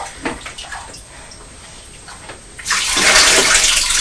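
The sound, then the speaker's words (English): Water is poured from a brown washing-up bowl into a white bowl. A few small splashes and trickles come first, then a loud, continuous rushing pour runs to the end. “so you take the water from the brown bowl into the white one”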